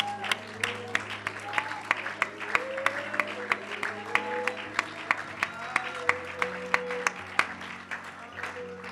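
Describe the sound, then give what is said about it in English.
A church audience claps its hands in worship: many regular, evenly paced claps keep a steady beat under a voice for the whole stretch. “In the name of Jesus, would you clap your hands unto the Lord?”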